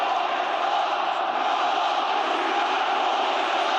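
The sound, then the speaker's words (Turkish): Beşiktaş football supporters chant in support of an Egyptian star player, a dense, steady roar of many voices that holds at an even level throughout, with no distinct rhythm standing out. “Beşiktaşlı taraftarlar transfer gündeminde yer alan Mısırlı Yıldız lehine tezahüratlar yaptı.”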